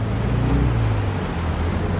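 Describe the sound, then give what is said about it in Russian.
A car speeds through city streets, heard as a steady, dense low rumble of engine and road noise with no clear breaks. “Лучи осеннего солнца отражались от серебристого автомобиля, летевшего по улицам города.”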